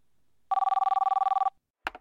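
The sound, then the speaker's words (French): A telephone rings at a police station in Nancy: one rapid trilling burst of about a second, steady in pitch, then silence and a short knock. “C'est un appel téléphonique au commissariat de Nancy qui change le cours de cette histoire.”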